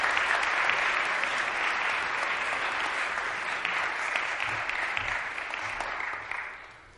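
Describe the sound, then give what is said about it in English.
An audience applauds to welcome a guest speaker to a morning chapel service. The clapping is dense and sustained, holds steady, then fades away at the very end. “Put your hands together and welcome him to our chapel service this morning.”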